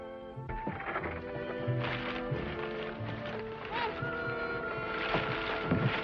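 A horse-drawn wagon rolls along with hooves clip-clopping in a steady gait, partly buried in a dense, continuous background mix.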